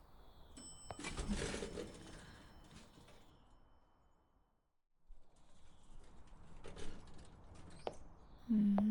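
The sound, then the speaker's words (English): Elevator ride: faint mechanical clatter, clicks and a door sliding, then a near-silent gap midway, more clicks, and a low steady hum rising at the very end. “And we'll just take the elevator to my room,”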